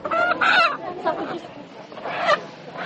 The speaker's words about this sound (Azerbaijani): Gülçöhrə Əliyeva bazarda diri toyuq satmağa məşğuldum. Deyir ki, bu toyuqları özü yetişdirmir, quşçuluq təsərrüfatlarından alır.